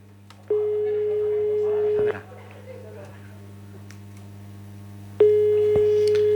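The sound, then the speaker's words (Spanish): An unanswered telephone call rings out as two long, steady, mid-pitched ringback tones separated by a long pause, over faint background hiss. “A ver si atiende ahora. Igual ha puesto la tele ¿verdad? Y no lo coge ya de vergüenza.”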